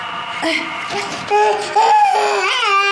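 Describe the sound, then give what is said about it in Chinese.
A baby cries loudly in strained, wavering wails that run on almost without pause. “哎呀，不哭了，不哭了，不哭了，哎呀，不哭了，不哭了啊”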